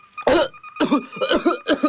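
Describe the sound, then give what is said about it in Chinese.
A man coughs violently after choking on a sip of tea. Four harsh, loud coughs come in quick succession, each a sharp burst with a raspy, voiced edge. “阿炳喝了一口茶水，却不料被水呛住了，猛烈地咳嗽起来”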